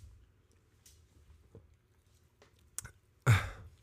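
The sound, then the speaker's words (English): A dog chewing on a bone, heard as faint scattered clicks and scrapes against near-silence, followed by one louder, rattling knock near the end. “Dakota is chewing on her bone and playing with the ball right now. So if you hear her rattling in the background”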